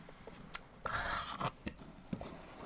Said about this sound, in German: Ich werde jetzt vor Ihren Augen diese Käsesemmel in meinem Mund verschwinden lassen.